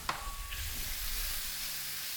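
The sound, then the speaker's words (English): Freshly fried onions sizzle in a pan with a steady, dense hiss that holds evenly throughout, opened by a brief click. “Here are the onions we had just fried.”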